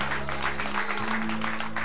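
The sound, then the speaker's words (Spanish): A church audience applauds during a service, an even wash of clapping that carries on steadily for the whole moment over low, sustained tones. “Un aplauso para Cristo nuestro Señor Jesús.”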